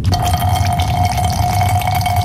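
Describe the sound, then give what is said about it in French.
A man urinates into an airplane toilet during turbulence, making a continuous splashing, trickling stream over a steady tonal cabin hum. “Putain de turbulence! Pas moyen de pisser droit ici, mais qu'est-ce que c'est que ça?”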